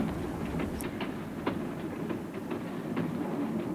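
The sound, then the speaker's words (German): A train runs on rails, wheels clacking over the track joints in an even, repeated rhythm of many light knocks. Beneath them is a steady, low rumbling hum. “Es war eine angenehme Fahrt und pünktlich erreichte der Zug den Bahnhof Kleintantow.”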